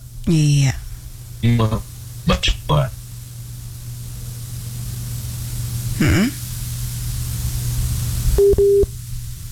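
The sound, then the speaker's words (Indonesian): Telephone tones sound as a radio studio dials a guest back after the line dropped. Voices come first, then a steady hum runs underneath, and a clear steady tone sounds near the end. “kita terputus dengan narasumber kita, tapi kami coba kembali menghubungi Pak Evan Edomeko”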